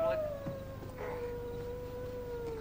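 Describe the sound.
A dog howling, one long sustained wail whose pitch slides slowly downward, faint and unbroken, with a thin higher overtone and a soft background hiss.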